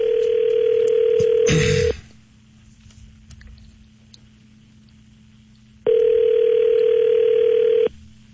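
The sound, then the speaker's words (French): A telephone line tone sounds while a call is being placed. A steady mid-pitched tone plays in two bursts of about two seconds each, separated by roughly four seconds of low hum. A brief rustling clatter marks the end of the first burst. “On peut l'appeler? Oui. OK, on l'appelle.”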